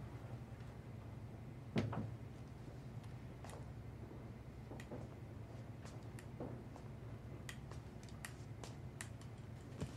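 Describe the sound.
A hospital room door being shut carefully: one soft click and thud, with a few faint ticks and light shuffles around it, all very quiet.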